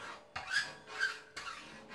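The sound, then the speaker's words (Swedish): A hand file rasps in three long, scraping strokes during a bank break-in. Each stroke is a gritty, bright rasp that swells and fades, with brief pauses between strokes and no voices. “Så, här är de. Nu får vi sätta igång och fila.”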